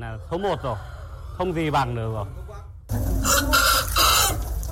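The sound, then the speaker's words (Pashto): Chickens clucking on a farm, with a few loud, harmonic calls that rise and fall in pitch, followed by a louder, noisier stretch of flock sound. “د فارم مالک وای د چرګانو ته د جوارو دانه او وریج ورکوي او خلاص یې پریخوي”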